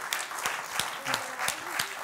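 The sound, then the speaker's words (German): Applause from the audience at a quiz show: a steady bed of clapping with a few sharper claps standing out at a fairly even pace, and a faint voice underneath. “unser herzlicher Applaus”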